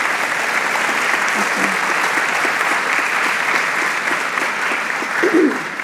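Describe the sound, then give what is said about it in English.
Loud, dense applause from an audience welcoming guests at a talk, an even wash of many hands clapping that holds steady for several seconds. “Put your hands together to welcome all of our guests today.”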